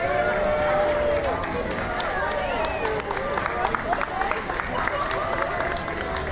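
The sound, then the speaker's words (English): Cast members along Main Street USA at Disneyland clap to welcome guests. Scattered applause runs throughout, mixed with crowd murmur and voices talking over it. “Cast members up and down Main Street USA applauding and”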